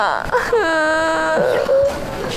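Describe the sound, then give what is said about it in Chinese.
A young girl cries in a loud, drawn-out wail. The cry holds a steady, wavering tone and then breaks into shorter whimpering sobs. “不哭不哭啊，咋的了？不哭不哭”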